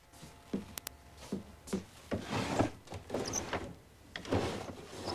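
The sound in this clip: Drawers being opened in a simple white-walled bedroom, a run of wooden sliding scrapes and knocks with a couple of sharp clicks, fairly quiet and with no talk.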